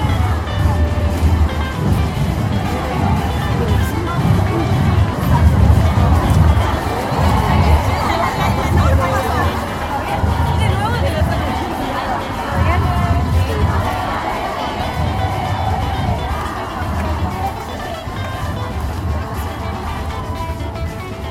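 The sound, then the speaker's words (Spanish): Crowd noise from a huge protest march of over 400,000 people crossing La Plata, a steady, thick babble of many voices over a low rumbling, traffic-like drone that never lets up. “protagonizaron todas y todes la marcha de cierre del domingo 13. Fueron más de 400.000 que atravesaron la ciudad de las Diagonales a lo largo de 4 kilómetros. ¡Ahí viene!”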